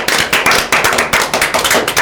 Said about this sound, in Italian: Un altro applauso.